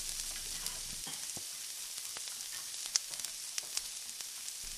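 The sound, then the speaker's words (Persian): Meat frying in oil in a pan for bean rice, a steady soft sizzle with scattered crackles and small pops throughout, with no talk. “برای اینکه اصاره گوشت خارج نشه مزش حفظ بشه سه چهار دقیقه سرخ بشه بسه حواستون باشه نسوزه”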